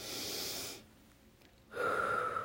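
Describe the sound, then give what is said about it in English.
A person takes a deep breath: a long, airy inhale, a short quiet pause, then a breathy exhale. “I did want to start by taking in a deep breath in”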